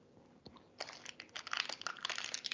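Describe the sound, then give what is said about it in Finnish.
A snack bar being bitten and eaten: one small click, then a dense, crackly run of crunching and crinkling that grows louder and keeps going to the end, with no talk. “Tää oli itse asiassa niin hauska makkunen, että mä taidan. Mun on pakko syödä tää melkein kokonainen laatta.”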